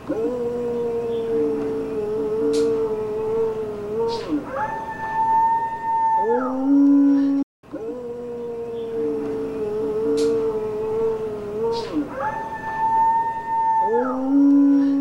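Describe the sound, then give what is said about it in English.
Long, wavering howls recorded in the woods, alleged to come from a Bigfoot near a barking dog: sustained tonal cries that jump higher midway and then drop back. The same sequence sounds twice with a brief gap between. “that one of him barking and then the Bigfoot making noise. It's kind of a scary sound.”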